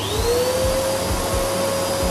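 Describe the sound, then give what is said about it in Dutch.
A household vacuum cleaner runs with a loud, steady motor whine over a broad airy rush. Its pitch climbs briefly at the start, then holds level. “Dat was de stofzuiger die niet tot 1400 watt kon.”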